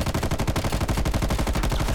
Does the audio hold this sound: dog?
no

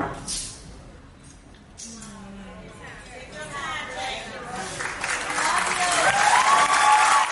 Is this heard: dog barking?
no

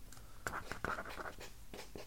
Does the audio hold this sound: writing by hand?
yes

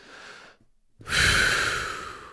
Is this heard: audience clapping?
no

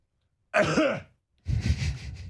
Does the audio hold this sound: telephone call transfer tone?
no

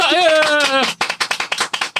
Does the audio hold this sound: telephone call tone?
no

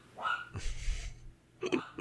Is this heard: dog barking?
yes

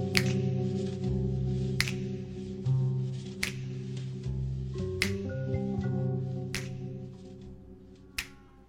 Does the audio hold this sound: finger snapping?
yes

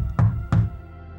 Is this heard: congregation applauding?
no

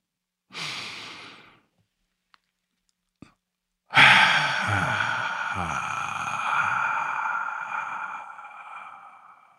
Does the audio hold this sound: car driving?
no

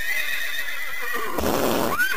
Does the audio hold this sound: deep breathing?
no

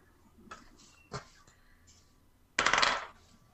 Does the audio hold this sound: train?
no

